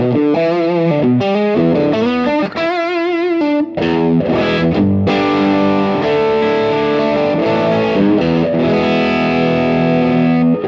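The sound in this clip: Overdriven electric guitar played through an amp with the gain turned up and the volume backed off, giving a thick, saturated, buzzing tone. Sustained distorted chords and notes ring loud and continuous throughout, with no talking.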